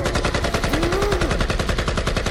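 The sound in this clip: Rapid rifle gunfire in automatic bursts, a loud, continuous stream of closely spaced shots with no pause from start to end.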